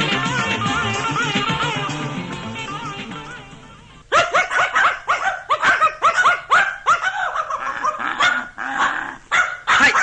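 Dogs bark and yip in many quick, loud, sharp bursts that start abruptly after several seconds of music.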